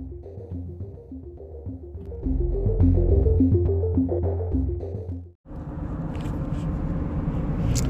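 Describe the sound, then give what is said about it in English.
Car interior noise while driving: a steady low rumble that grows louder after a couple of seconds, dips briefly, then turns into a broader, hissier road noise. “I'm driving right now, so I hope the audio is clear.”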